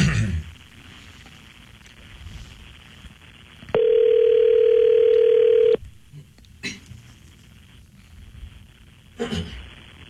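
A telephone line ringing after a number is dialed: one steady ringback tone lasting about two seconds over a quiet, hissy line, with a few faint clicks before and after.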